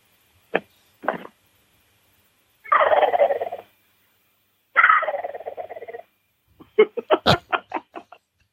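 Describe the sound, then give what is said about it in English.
A Hank gobble call, a turkey call imitating a gobbler, sounds two short yelps, then two longer rattling gobble bursts, and ends with a quick run of sharp, staccato pulses. Silence separates the parts. “It sounds like he's got a gobbler right in the room. It sounds like a real turkey once you back away from it and it doesn't overmodulate.”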